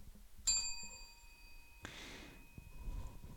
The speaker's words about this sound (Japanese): 会話を聞いて、途中でベルが鳴ります。